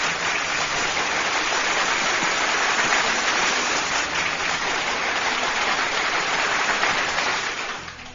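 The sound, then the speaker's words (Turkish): Applause after a poem reading: a dense, steady clatter of clapping runs unbroken throughout and fades away at the very end. “Kocaman kocaman bir alkış sana.”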